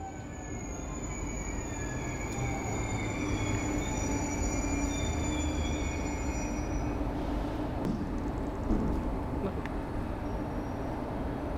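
Train rumbling at a railway station, a dense steady roar with thin high wheel squeals drifting above it, continuous and even in loudness throughout.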